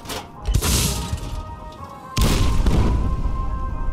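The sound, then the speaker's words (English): Heavy video-game explosions from a tactical nuclear catapult and a multi-warhead launcher: two deep booms, a sharp blast at about half a second and a louder one near two seconds, each trailing off into rumbling crackle. “explosives expert Lost Paws Jr., handling the Fat Man tactical nuclear catapult. Right next to him, Frederick Winther, who ranked up to experimental MIRV, which shoots like 8 of those things at once.”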